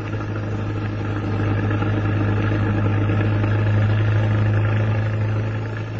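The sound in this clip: A car engine running during a drive gives a steady, loud, low droning hum with a faint rumble that holds evenly from start to finish, with no voices.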